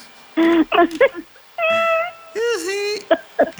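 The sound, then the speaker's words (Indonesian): A cat meows repeatedly: several separate calls, some short and clipped, two longer and drawn out with a wavering, bending pitch, spaced by brief pauses. “Ada suara merdu itu di samping tak? Itu suara kucing.”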